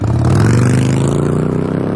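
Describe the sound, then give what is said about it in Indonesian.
A motorcycle speeds through a red light with a loud, steady engine roar that stays close to one pitch throughout the brief clip. “Buset, tuh orang ngebut bener bawa motor. Gak mikir nyawa apa ya? Pakai ngelanggar lampu merah lagi.”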